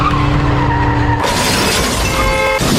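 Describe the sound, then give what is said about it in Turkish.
A speeding car skids and crashes into a broken-down car stopped on a road, caught on a security camera. A sustained tonal squeal of skidding tyres breaks into a loud, crunching, shattering impact, and harsh noise carries on afterwards. “Bir otomobil Avcılar'da arıza yaparak yolda kaldı. Otomobildekiler araçtan inerek arızaya bakmak isterken bu sırada aşırı hızlı bir araç makas atarak otomobile çarptı. Kaza anında güvenlik kamerası kayıttaydı.”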